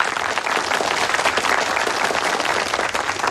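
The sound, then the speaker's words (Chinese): Steady, dense applause from a crowd welcoming the new guerrilla brigade leader, an even wash of clapping holding at a constant level throughout. “大家热烈欢迎。”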